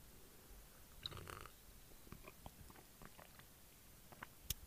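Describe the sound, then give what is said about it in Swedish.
Coffee being sipped and swallowed, giving soft, faint mouth and slurping noises with a brief breathy burst near the start, then a few quiet wet clicks. “Jag vill bara säga här att vi dricker kaffe. Så att ni vet om det. Hör här.”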